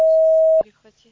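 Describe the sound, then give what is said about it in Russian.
A Russian voicemail system sounds its recording beep, a single steady mid-pitched tone about half a second long. It cuts off sharply and a voice starts speaking. “После сигнала, пожалуйста, запишите свое сообщение. Для окончания записи нажмите любую клавишу или перестаньте говорить.”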